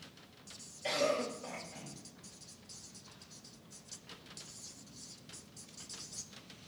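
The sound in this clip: Handwriting scratches across a surface, a soft dry rasp that continues faintly after a brief louder burst near the start.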